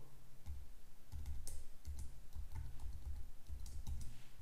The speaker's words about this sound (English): So I will type the password.